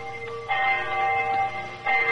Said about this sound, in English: I remember the hour was striking.